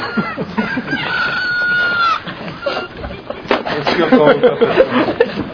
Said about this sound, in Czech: To, co za mnou kokrhá, to je můj telefon, toho si nevšímejte.